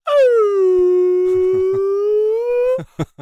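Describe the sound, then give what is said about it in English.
A human voice imitates a whale call with one long, loud moaning hum that dips slightly and then rises in pitch, followed by a few short clicks. “you just make whale sounds. You just make whale sounds for a long time.”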